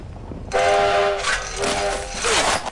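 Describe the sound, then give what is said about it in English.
A steam train's whistle sounds as the coal-fired engine edges forward, a bright, sustained harmonic tone cutting in abruptly, overlaid by a few loud bursts of hissing steam. “Steamer pulls on the whistle as Smokey shovels coal into the engine. Steamer pushes a lever and the train edges forward.”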